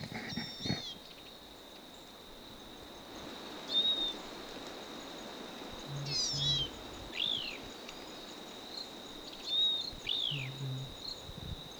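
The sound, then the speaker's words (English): Bird calls from a single bird: a few short, high chirps and down-slurred whistles spaced several seconds apart, quiet over a steady high insect-like drone. “Same bird.”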